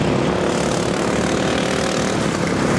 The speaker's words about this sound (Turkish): 30 takım modifiye edilmiş çim biçme makineleriyle 9 saat boyunca mücadele etti.